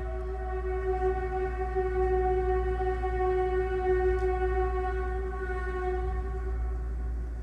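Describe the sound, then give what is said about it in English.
A train passing loudly, with a heavy steady rumble and sustained whining tones that hold level throughout, no voices. “If you can hear that, that's the train. And it's part of our normal recording. I don't want to remove it. Wow, this is extremely loud.”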